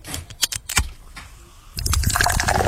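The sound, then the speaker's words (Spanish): Coca-Cola is poured into a medium-sized glass filled with ice. A few short knocks and clicks come first, then a steady, fizzy rushing pour starts partway through and continues loudly to the end. “Y cuando usted está echando esa Coca-Cola en el vasito, Manolo, tú ves esas burbujitas que se le van pegando a los hielitos.”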